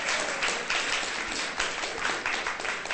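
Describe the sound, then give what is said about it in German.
Applause rises from a church audience during a bilingual worship service: a continuous, moderately loud patter of many hands clapping, swelling in small surges and never pausing. “Geben wir dem Herrn nicht einfach mal einen Applaus?”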